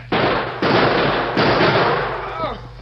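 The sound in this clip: Gunfire cracks in a radio drama shootout: three loud, sharp blasts with long, ragged decays, spaced about half a second apart, followed by a voice near the end.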